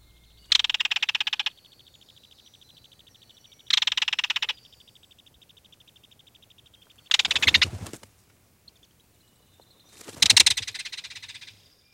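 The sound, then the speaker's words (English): A belted kingfisher gives its main call, a twittering rattle. Four separate high, buzzy rattling bursts are spaced across the stretch with quiet gaps between them, and no voices are present. “You heard the main call of a belted kingfisher, a distinctive bird whose likeness perches atop the logo for this show.”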